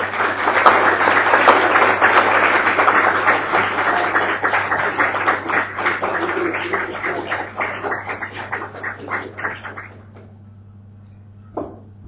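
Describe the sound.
An audience gives warm applause to welcome a speaker at a lecture. The clapping is loud and continuous for about ten seconds, then thins out and stops.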